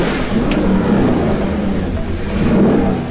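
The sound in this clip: A small car, a 500, roars loudly as it accelerates in Italian-style driving. The engine and road noise form a dense, sustained rush that holds steady throughout, with no voices over it.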